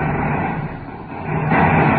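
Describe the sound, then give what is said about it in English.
A rocket ship touches down on an asteroid: a loud, broad engine roar that dips briefly in the middle, then swells back up stronger toward the end, with no voices. “Power deck, cut rockets. Here we go, sir. Touchdown.”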